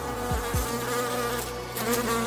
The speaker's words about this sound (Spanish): cuando las cenizas tocaron el viento, comenzaron a emitir un zumbido.